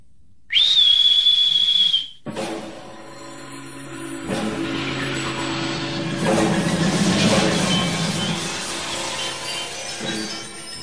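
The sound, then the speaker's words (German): A shrill, sustained whistle from a jester at a masquerade party, held steady for about a second and a half, then cut off and followed by a long, loud, noisy hiss with a low rumble beneath. “Während ein schriller Pfiff des Narren das Gelächter der Maskengesellschaft verstummen ließ”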